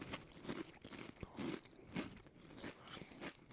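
Crisp crunching and chewing as someone bites into a corn-flavored food. Faint, with a rapid series of crackly bites in irregular bursts and no voices.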